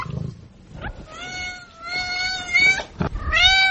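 A cat meows a few times: drawn-out, wavering, tonal cries separated by short gaps, fairly loud and with no voices.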